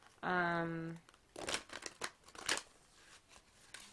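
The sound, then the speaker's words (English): Cards being pulled from a Psychic Tarot deck: a short ringing tone comes first, followed by several quick, faint papery flicks and rustles. “pull the cards from the Psychic Tarot deck to get the overall advice”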